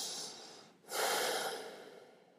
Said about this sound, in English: And I just want to take a deep breath in and out